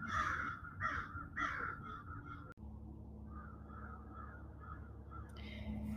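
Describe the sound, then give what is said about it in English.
Crows caw in the background in a quick run of harsh, loud calls, then go quiet before one more caw near the end, over a steady low rumble. “I'm sure you can hear all the noise in the background. It's, you know, there's crows just going away right now”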